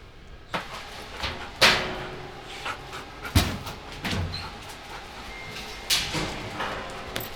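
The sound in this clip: A search dog pants during training, with quick breathy panting and occasional sharp thuds or knocks cutting through at irregular moments.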